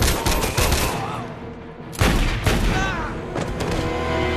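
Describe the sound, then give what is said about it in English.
Video game gunfire: a few sharp, loud bursts of shots crack out at irregular intervals over a dense, rumbling backdrop of game noise. “Really, you shouldn't have shot and killed the guy.”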